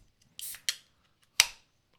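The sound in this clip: A can of Diet Mountain Dew being opened gives a few sharp metallic cracks and short fizzing hisses, heard alone with no talk.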